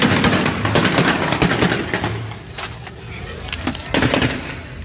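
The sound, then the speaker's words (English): Gunshots ring out as several sharp, loud cracks scattered irregularly through a dense, noisy background. “Shots fired. Look, they all got their guns out.”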